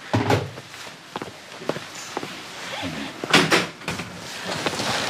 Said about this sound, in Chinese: 你把门关上